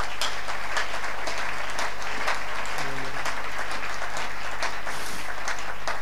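Dense applause from a church audience acclaiming God during a service, steady and continuous throughout, with many overlapping claps and a low hum underneath.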